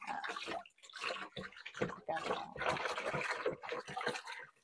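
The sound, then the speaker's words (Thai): Water sloshing and splashing as turmeric-dyed fabric is rinsed by hand until the water runs clear, in bursts of swishing with short pauses between. “ต่อไปนะคะก็จะเป็นการล้างทำความสะอาดในวิธีการล้างนะคะก็คือเราล้างให้เขาล้างจนเป็นน้ำใสเลยนะคะจนสีเหลืองหายไปนะคะ”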